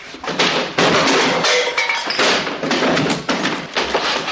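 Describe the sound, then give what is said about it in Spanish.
Heavy thumps, slams and crashes as furniture is kicked and smashed during a house raid by a group of fascists, with beds broken and drawers knocked out. Many loud, dense impacts arrive one after another without a break. “Águila y su grupo de fascistas registran la casa de Olmo y lo destrozan todo a patadas.”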